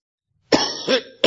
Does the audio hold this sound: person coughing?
yes